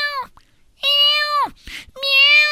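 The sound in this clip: Cat meows imitated by a human voice: a short call, then two loud, drawn-out, tonal meows with a breathy hiss between them, and no other talk.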